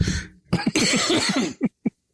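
Harsh coughing fit from someone sick for weeks with a cold and congestion. A burst of many rapid, raspy coughs is followed by a couple of separate short coughs.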